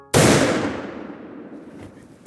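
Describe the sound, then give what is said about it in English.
A hunting gun fires in the woods: one sharp, loud shot with a long tail that fades over about two seconds. “There were 2 of us, 2 creatures in the woods, coexisting. And then, I pulled the trigger.”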